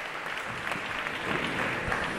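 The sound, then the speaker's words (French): Audience applause at a public gathering: dense, steady clapping from many hands that stays even in loudness for the whole stretch, with no voices standing out. “je pense qu'on peut applaudir, que vous pouvez vous applaudir”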